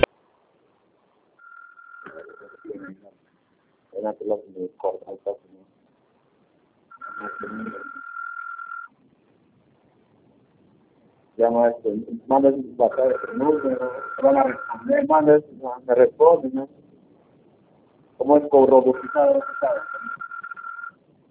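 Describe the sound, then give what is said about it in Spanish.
Cable Perú call-transfer and on-hold tones: steady high beeps recur several times, alternating with bursts of recorded voice, with silent gaps between them. “Lo voy a transferir su llamada. Manténgase en línea.”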